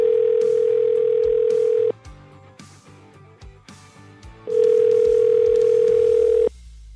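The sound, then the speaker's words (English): A telephone ringback tone sounds on a call being placed: two long, steady, even-pitched rings separated by a pause of silence, with faint background clatter in between. “Let me get it dialed up over here.”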